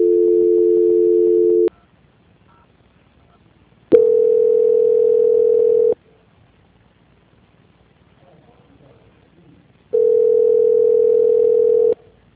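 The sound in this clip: Steady telephone tone heard while a call is being transferred: three long, level beeps of about two seconds each at one constant mid pitch, separated by near-silent gaps.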